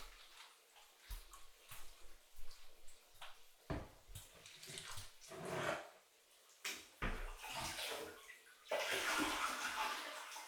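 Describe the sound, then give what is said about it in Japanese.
Hot bath water is scooped from a filled bathtub with a bath pail, making a series of soft, uneven splashes and sloshes that end in a longer, steady pour. “せっかく入れてるし、お風呂のお湯を使いましょう。オケってありましたよね。”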